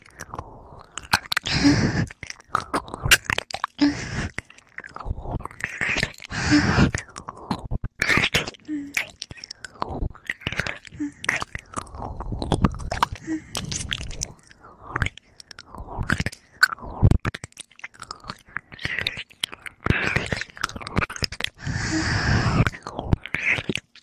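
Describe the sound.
Someone bites and chews food: repeated crunchy bites and moist chewing continue steadily the whole time, fairly quiet, with irregular bursts of crunching.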